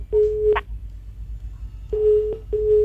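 A telephone sounds a busy-signal tone, three short steady mid-pitched beeps of about half a second each. The first stands alone, then a pause, then two come close together, all over a faint low hum.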